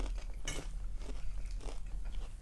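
Crunchy salad coated with dressing and cheese being chewed, with many quiet, crisp crunches and bites in an irregular rhythm, heard alone without talk.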